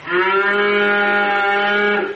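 A cow moos once in a long, steady, loud low call that holds its pitch for about two seconds, heard alone on a village farm in Tavush where displaced families keep cows with calves.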